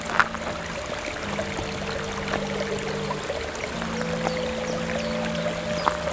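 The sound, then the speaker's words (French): Water trickling and dripping in a gorge in early spring as the melt begins: a steady, soft wash of running water with faint occasional drips and low steady tones alongside. “L'eau qui dégouline”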